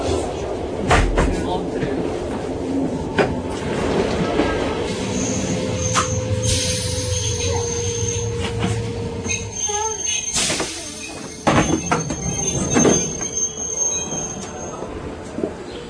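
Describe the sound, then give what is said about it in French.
A train arriving at Montreux railway station in Switzerland, with wheels squealing high and sustained over a low rolling rumble, plus a few sharp clanks and voices talking. “Bon, alors là, je me trouve à la gare de Montreux. Je viens d'arriver.”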